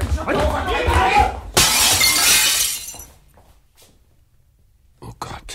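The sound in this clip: Window glass shatters as a man crashes out through it in a gaslight-era crime drama. Raised voices come first, then a loud, bright burst of breaking glass with a long spray of shards, then near silence and a few faint knocks.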